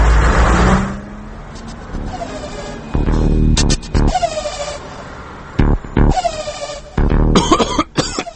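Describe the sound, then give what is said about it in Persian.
A run-down, battered car passes through busy city traffic, a loud, crowded jumble of engine noise broken by sharp, rough bursts that resemble coughing. “الان یه ماشینی که از فرط داغونی به جای دود گاز خردل تولید میکرد از اینجا رد شد.”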